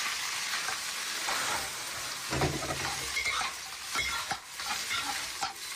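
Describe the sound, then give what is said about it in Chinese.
Chopped cattail shoots and small dried shrimp sizzle steadily as they are stir-fried in a hot pan, with a constant bright hiss and a few scraping, clattering stirs of the spatula. “虾米， 炒个十秒。倒入切断的蒲菜， 蒲菜， 对，翻炒三分钟”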